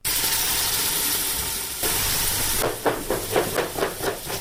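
Kitchen sounds of a pregnant woman cooking and forcefully chopping carrots: a steady sizzling hiss, then a run of many rhythmic knife chops.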